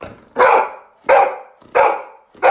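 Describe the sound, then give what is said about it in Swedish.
Four barks from a happy female dog, each a short, loud, throaty woof with a quick fade, spaced evenly in a bouncy rhythm with brief quiet gaps between. “Och Lovis är en väldigt glad hund, oftast kan jag själv intyga. Och hon låter så här när hon är glad.”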